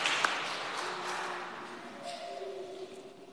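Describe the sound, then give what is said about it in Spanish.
Church audience applauding mothers at a Mother's Day Mass in the Dominican Republic: a soft wash of clapping that gradually fades, with a faint sustained tone rising beneath it near the end. “Un aplauso para las madres de la República Dominicana.”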